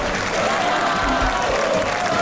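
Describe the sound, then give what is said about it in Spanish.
Applause and crowd noise from people in football stadium stands greeting an arrival: a loud, steady wash of clapping with crowd murmur that carries on without a break. “La gente está aplaudiendo aquí porque acaba de llegar Donato.”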